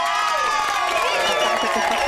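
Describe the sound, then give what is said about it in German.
A crowd-cheering effect plays on a quiz game, a loud, steady wash of excited shouts and whoops from many voices. “Der Jubel hier ist ein bisschen zu früh losgeblendet, aber das kriegen wir.”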